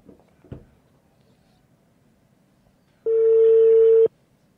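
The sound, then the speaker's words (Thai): A phone call's ringing tone sounds once: a steady, even beep of about one second, after a brief soft click and near silence. “งั้นเดี๋ยวโทรหาเลยละกันนะครับ ขออนุญาตนะครับ”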